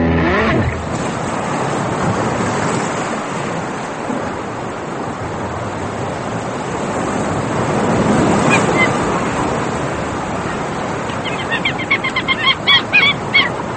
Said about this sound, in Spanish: Sonido de mar, sonido de gaviotas.